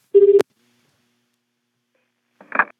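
A phone number being dialed on a touch-tone telephone: one steady, loud keypad beep of about a quarter second, then silence and a short, softer, noisy burst near the end.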